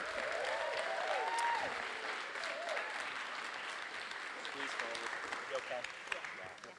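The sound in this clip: An audience applauds as two guests are welcomed onto a stage, a steady wash of clapping that holds for several seconds, with voices heard over it.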